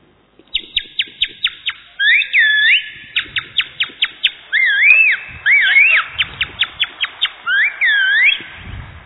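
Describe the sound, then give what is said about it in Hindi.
Shrill parrot-like chirps and squawks imitated with a small piece of plastic carry bag: many quick high chirps in bursts, broken by a few longer warbling squawks, sounding alone. “तोता, ये plastic जो carry bag होती है अपनी उसका छोटा सा एक पीस है,”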